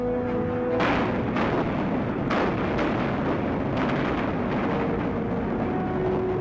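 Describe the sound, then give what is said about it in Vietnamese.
Artillery guns firing from the Láng fort on the night of 19 December 1946 at the opening of the national resistance war, heard as a few muffled booms within a continuous rumbling roar. “từ pháo Đài Láng, những khẩu pháo đã gầm lên sẽ toạc màn đêm, mở màn cho toàn quốc kháng chiến.”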